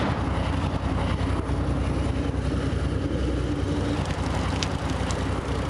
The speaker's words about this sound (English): The Union Pacific chugs by. Evening commuters whisk by,